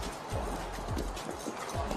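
Racehorse City of Troy walking in the starting-gate chute at a racetrack: several soft, muffled hoof clops at an unhurried, even pace.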